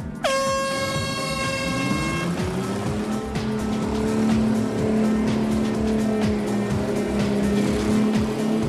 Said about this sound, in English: The tyres are cutting down through the slime and seem to be keeping their grip.